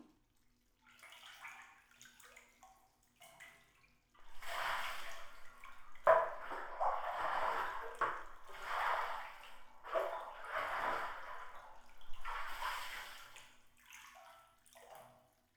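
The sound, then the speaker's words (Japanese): Warm water is poured and splashed over a person sitting in a bath, in soft, irregular gushes and trickles with small drips between them. No one speaks. “もう少しお湯をかけて体を温めようね。”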